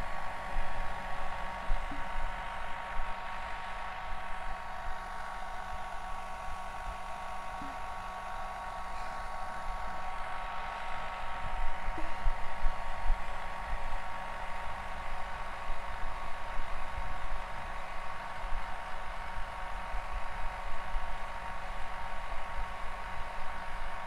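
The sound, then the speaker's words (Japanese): A hair dryer blows steadily for the whole stretch as an animal's fur is dried down to the roots during grooming, a constant even whoosh with no voices. “なので全身をしっかり毛の根元から乾かしていきますね。”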